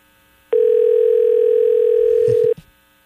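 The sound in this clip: Telephone line ringing tone as a call is placed: one steady, mid-pitched tone sounding alone for about two seconds, then cutting off into a brief faint clunk.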